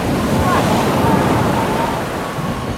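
A storm at sea aboard a ship, with wind and waves blending into a loud, dense, continuous roar that has no distinct breaks.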